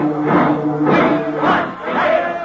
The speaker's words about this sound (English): An angry crowd of rooters is gathered in front of the Yale dressing room